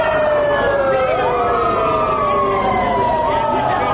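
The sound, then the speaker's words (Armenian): Police car sirens switched on outside a government building during a protest wail together: loud, continuous, overlapping tones that slide up and down without a break. “Ոստիկանական մեքենաների ազդանշանները միացնելով փորձեցին խլացնել Բագրատ արքեպիսկոպոս Գալստանյանի ձայնը։”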